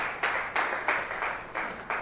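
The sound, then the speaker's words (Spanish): A church audience applauding the Lord during a morning service, heard as faint, evenly spaced bursts of clapping in a steady rhythm, each burst quickly fading. “Regálale un aplauso al Señor en esta mañana.”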